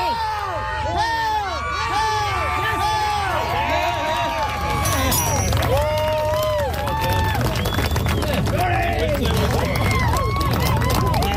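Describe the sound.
A crowd shouts and cheers as a woman lifts the Dinnie Stones in Scotland. Many overlapping voices call out loudly and without pause.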